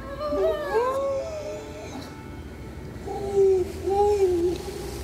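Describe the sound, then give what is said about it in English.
Grey seals wail on an island, their eerie siren-like calls gliding up and down in pitch. Several voices overlap early, then more sustained wails follow. “they're grey seals, and the pups of grey seals are one of the favourite snacks of the orca that are circling the island.”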